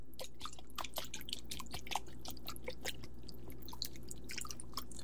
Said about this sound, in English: So we're gonna go ahead and give this a nice whisk.